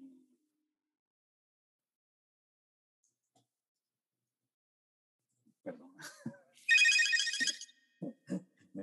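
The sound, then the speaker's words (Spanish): An electronic phone ringtone signals an incoming call: a bright, buzzing, high-pitched burst after a long near-silence and a few soft scattered noises, with more short soft sounds following. “La superintendencia de el hogar te está llamando.”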